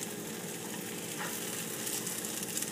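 Food sizzles steadily in a frying pan as it is pushed around and flipped, a dense, even crackle that stays at one level throughout with no voices.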